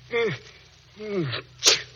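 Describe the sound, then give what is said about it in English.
A man suffering from an allergy sneezes: two drawn-out voiced gasps build up, then a sharp, explosive burst ends it, loud and alone. “you sneezed. And there are no pine trees around here.”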